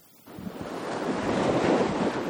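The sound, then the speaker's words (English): Sea waves break on the shore in a broad, roaring wash of surf that swells up after a brief quiet start and stays loud, with wind noise mixed in. “I thought it appropriate to go back to one of the first elements of life on our planet Earth, the sea, the primordial sea, which was everywhere.”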